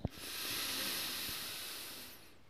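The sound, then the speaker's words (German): A slow, deep breath drawn in and let out, heard as one long, soft, airy hiss that swells and then fades, quiet and steady with no voices. “lass uns einfach nochmal einen tiefen Atemzug nehmen.”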